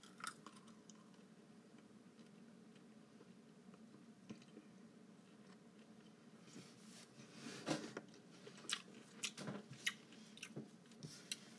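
Biting into and chewing a single cherry makes faint, wet squishing and crisp crunches. The first half is quiet and soft, and a burst of several sharp bites and juicy squelches comes later.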